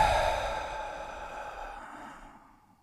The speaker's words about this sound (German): Ich mache das mal soundmäßig hier einmal vor, also durch die Nase ein und dann die letzten 20% nochmal nachatmen und zwar so. Und durch den Mund aus.